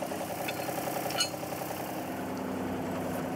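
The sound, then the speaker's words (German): A wheel loader's engine runs in a steady, mid-pitched drone with a faint rattling vibration and one brief clank early on. “Und wenn er dann läuft, ich mache einen dritten Gang drin. Ich fahre den Radlader nicht so oft.”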